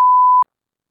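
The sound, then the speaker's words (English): A single short electronic beep comes from pressing a voicemail button. The clean, steady mid-pitched tone lasts under half a second and then cuts to silence. “No, I hit the wrong voicemail button. Still hit the wrong voicemail button.”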